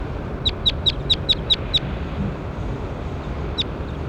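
A bird gives a quick run of seven high, sharp chirps, then a single chirp after a pause, over a steady background of noise.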